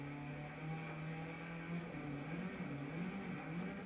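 Car driving straight ahead through a snowy forest: a faint, steady low engine drone with a continuous road rumble and no clear changes.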